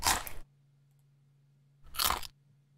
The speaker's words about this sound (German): Ein Proband beurteilt den Chips-Sound. Zuerst 2 Originalgeräusche.